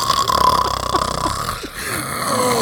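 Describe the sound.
A person vocally imitating loud snoring: a harsh, rasping, rattling drone with rapid fluttering pulses that swells and dips, with a brief break near the end before it carries on.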